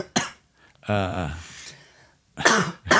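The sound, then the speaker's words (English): Harsh coughing from someone who swallowed whiskey the wrong way: a few loud, forceful coughs in separate bursts, one stretching into a strained, voiced rasp. “coughing, not because of the whiskey. Yeah, I swallowed it wrong.”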